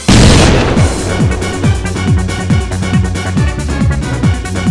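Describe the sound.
A grenade explodes in a counter-terrorist shooter video game, opening with a loud burst, followed by many rapid, evenly spaced bangs, each with a quick falling tone.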